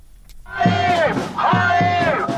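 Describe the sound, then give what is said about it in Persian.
A large crowd of thousands of Israelis demonstrating in Tel Aviv for a hostage-release deal and an end to the Gaza war chants and shouts in two loud, sustained collective bursts, the massed voices swelling together. “تظاهرات هزاران اسرائیلی در تل آویو با خواست نهایی شدن توافق برای آزادی گروگان‌های اسیر در دست گروه افراطی حماس و پایان جنگ در نوار غزه.”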